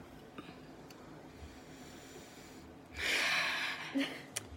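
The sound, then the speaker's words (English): A person takes one sharp, breathy intake of breath that rises out of a near-quiet background past the midpoint, followed by a short, faint breathy sound. “You take a breath there.”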